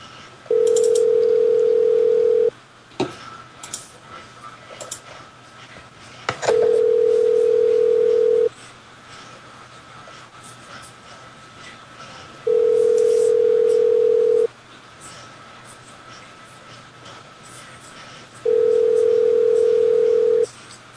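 Telephone tone of a Skype call sounds in four loud, steady, unchanging bursts of about two seconds each, separated by longer quiet gaps with faint background noise.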